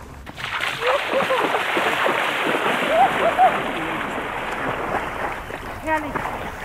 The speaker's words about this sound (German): Also jetzt, wo wir da sind, ich gehe jetzt noch schnell in der Donau schwimmen.